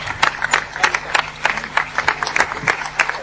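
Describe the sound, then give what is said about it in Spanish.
Scattered handclaps applaud a prize winner receiving a signed football shirt. Separate, uneven claps from a small group land irregularly rather than merging into a dense roar. “Una camiseta firmada por el gran Xavi Alonso. Que en este caso es para Borja Herrera. Un fuerte aplauso, por favor.”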